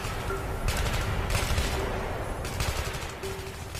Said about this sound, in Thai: เสียงปืนกลอัตโนมัติ AK-47 แผดเสียงมาจากเขาด้านบน